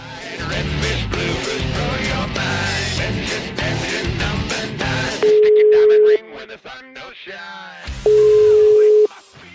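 Telephone ringback tone from a call being placed to a family home in Italy: two long, steady, even-pitched rings, each about a second, separated by a pause, following several seconds of loud music.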